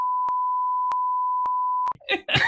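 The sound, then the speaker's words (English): A steady, high-pitched censor beep covering a movie spoiler holds for about two seconds, then cuts off as talking starts. “You just spoiled it, so I'm gonna beep you out in case people listening haven't seen.”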